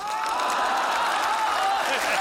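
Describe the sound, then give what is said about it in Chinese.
Applause from a group of people in a domestic comedy scene: dense, continuous clapping that stays even and fairly loud for about two seconds. “哎呦喂，来就来吧，还鼓什么掌？”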